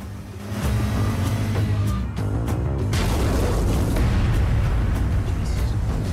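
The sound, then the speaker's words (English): A bomb explosion at army barracks gives a deep, loud, sustained rumbling boom that fills the whole stretch without letting up. “A bomb. What's there? It's the army barracks.”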